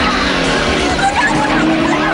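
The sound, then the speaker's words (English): Tyres squeal and an engine roars as a car swerves and turns during a police chase, a loud, unbroken screech over a dense engine rumble for the whole stretch. “He swerves to avoid oncoming traffic, then turns onto a different road and sees another squad car heading towards him.”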